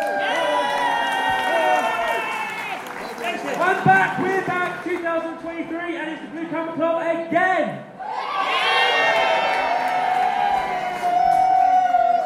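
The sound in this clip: Crowd cheering, shouting and applauding for a DJ at a Bubble Club event, a loud, sustained roar of many voices that swells again after a brief dip.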